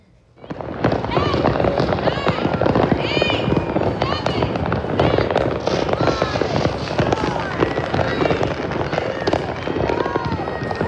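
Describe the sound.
New Year's Eve fireworks going off in San Antonio backyards, a dense, loud, nonstop crackle of bangs and popping bursts that keeps going throughout, with people's voices mixed in.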